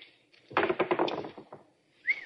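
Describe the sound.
Dice rolled in a gambling game, a quick burst of hard clattering knocks as they tumble and settle over about a second, fairly loud, with no talk.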